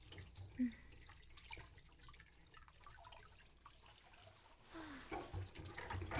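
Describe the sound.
Faint water running from a sink tap while dishes are rinsed, a soft continuous splashing hiss with small drips that swells louder toward the end.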